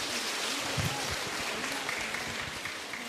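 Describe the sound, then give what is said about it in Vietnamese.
Applause from an audience at a Buddhist talk in Vietnam: dense, steady clapping that holds at an even, moderate level for about three seconds. “Xin quý vị hãy dành một tràng vỗ tay để lắng nghe.”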